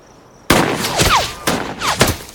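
Gunfire follows an order to fire: a few sharp, cracking shots burst out in quick succession, each trailing off in a short, ragged tail.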